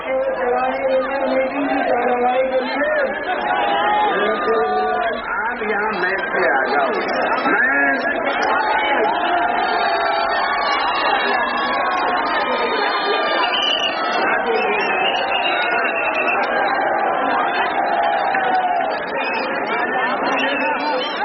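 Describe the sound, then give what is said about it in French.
Large crowds in India cheer and chant Phoolan Devi's name as she steps off a train, a dense, unbroken mass of shouting voices that stays loud and steady throughout. “vous avez filmé l'accueil triomphal des foules qui scandent son nom, Poulan Devi, quand elle sort du train.”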